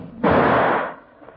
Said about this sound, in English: the bullet hit a tree 10 feet away